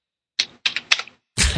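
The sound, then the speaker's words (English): Typewriter keys struck one at a time make a few sharp, bright clacks at an uneven pace, followed by a longer, fuller mechanical clatter at the end. “I'd love that typing. You have the world's oldest keyboard. Clunk, clunk, clunk, clunk, clunk. It's actually a typewriter.”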